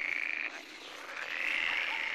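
A frog croaking in a swamp gives a continuous, buzzing trill that stays even and fairly faint throughout, with no voices present.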